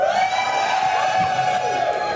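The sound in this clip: Crowd cheering and whooping at an Alberta NDP rally in Edmonton before a referendum vote, a continuous wash of shouts and voices at steady loudness.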